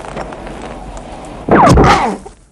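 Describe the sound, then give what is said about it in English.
A single gunshot cracks out as one sharp, loud burst with a brief ringing tail, following a stretch of low, quiet background. “Kersey shoots Zacharias through the heart.”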